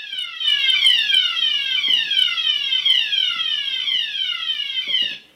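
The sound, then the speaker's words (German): Test fire alarm sounding in a building: a loud electronic siren of rapidly repeating falling pitch sweeps that holds steady for the whole stretch, with no voices. “ungefähr 15 Minuten ging dieser Probealarm und ich hatte noch ausreichend Zeit, ihn einmal für euch aufzunehmen. So klang das.”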